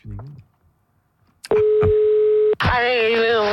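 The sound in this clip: Telephone dial tone on an outgoing call: a loud, steady, single-pitched tone holds for about a second, then gives way to a louder, buzzier tone. A brief voice is heard first, followed by a short quiet gap.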